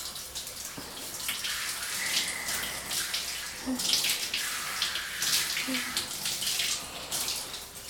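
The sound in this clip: Water is rinsed over skin by hand: a steady stream of flowing, splashing water with small irregular surges and gentle slaps as the hand pushes it along.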